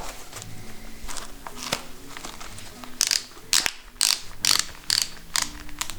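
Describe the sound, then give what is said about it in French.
Ratchet buckles click as sports shoes are tightened firmly to the feet. A run of sharp mechanical clicks grows louder and more distinct in the second half over a quiet background. “Serrage des chaussures ? C'est ça, ouais. On les serre bien pour bien qu'elles tiennent aux pieds.”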